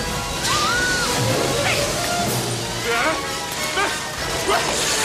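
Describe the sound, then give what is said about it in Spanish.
Rushing water bursts through the walls of a temple tunnel as a ledge collapses, a loud sloshing roar with crashing impacts while voices talk over it. “El agua rompe las paredes, la cornisa se derrumba.”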